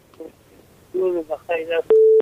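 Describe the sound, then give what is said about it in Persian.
Telephone call being connected on a phone-in line: brief muffled talk, then a single steady electronic beep lasting about a quarter second. “یک تماس دیگر رو وصل می سازیم، بشنیم کدام نازنین است از کجا تماس گرفته.”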